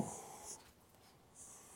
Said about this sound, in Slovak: Napíšem sem nejaké symboly a skúsim ich vysvetliť